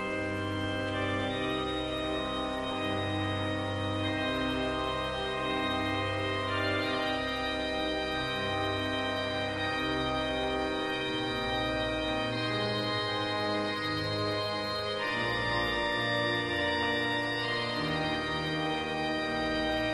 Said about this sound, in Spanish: Hay un concierto de marchas procesionales interpretadas al órgano que suena así.